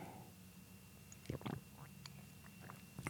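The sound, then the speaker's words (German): Someone with a dry throat takes a sip of a drink, making soft gulping and small mouth noises. A couple of brief swallows stand out against near silence. “Ich muss mal einen Schluck trinken für die Abmoderation”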